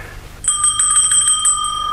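A small hand bell, rung to summon a servant, gives many rapid, bright, high strikes in an even, insistent rattle after a short quiet start.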